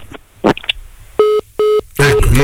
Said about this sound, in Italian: è caduta la comunicazione